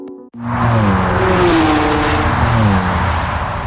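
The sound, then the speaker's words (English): A car drives on the German Autobahn. A loud, steady engine drone with a slightly wavering tone starts abruptly after a brief near-silence and continues with no talk. “I'm never going to get used to driving in Germany. What? Why? The Autobahn freaks me out.”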